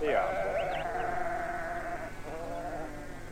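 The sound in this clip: Lambs bleat in quavering, wavering cries over steady low background sound, with a voice talking beneath them.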